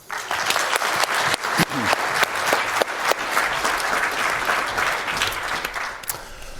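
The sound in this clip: Audience applause welcoming two speakers on day four of an event, dense and steady clapping with a few sharper individual claps standing out, continuing throughout and easing slightly at the end.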